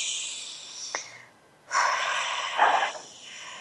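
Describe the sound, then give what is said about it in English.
A deep belly breath made as two long, airy, unvoiced breaths separated by a short pause. The second breath is louder and fuller than the first, and both are soft rushing air noise with no talking. “So let's breathe that in collectively. Big belly breath.”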